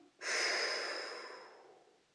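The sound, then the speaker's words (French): A single deep breath out, a long, soft, airy exhale that starts abruptly, then gradually fades over about two seconds. It is quiet and heard alone. “Enfin, on souffle un bon coup, on expire,”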